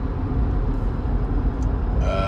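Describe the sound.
Steady road noise from a car being driven, a dense, constant low rumble with broad hiss above it and no break, with no one talking.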